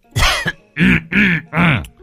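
An old man coughs indoors: four loud, rough, voiced coughs in a quick, uneven series, the first one longer and broken.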